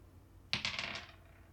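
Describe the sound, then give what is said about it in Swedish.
A single die is rolled during a tabletop role-playing game, giving a quick burst of bright clattering clicks that fade within about half a second, with no talk. “Ja, jag pressar en tärning. Och så hoppas vi på en 1.”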